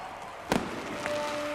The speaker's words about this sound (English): Cannon-like fireworks launchers send starbursts into a night sky. Fired in quick succession, the pyrotechnic footprints traverse a cityscape.